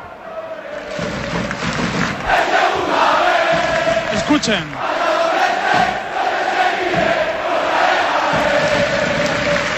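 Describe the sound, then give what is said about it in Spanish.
Football fans cheer and chant at Butarque stadium in southern Madrid before Leganés face Mirandés, with 300 travelling Mirandés supporters among them. A sustained crowd roar swells after the first second and holds loud, with a brief spoken word over it. “El ambiente es espectacular en Butarque, también animan a los suyos los 300 aficionados desplazados en misión especial al sur de Madrid por parte del Mirandés.”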